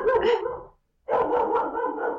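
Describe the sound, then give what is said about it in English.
A pet dog barks loudly in two sustained bursts separated by a brief silence, with no voices. “That's my dog.”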